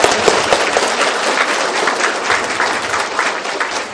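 An audience applauds at a Vietnamese gathering held to remember those who died in a war. The clapping is loud, dense and steady, a continuous crackling wash of many hands that does not let up for the full four seconds.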